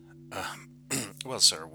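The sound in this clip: A man, a lead technician, clearing his throat, with a couple of rough, gravelly bursts that run into short voiced sounds, fairly quiet.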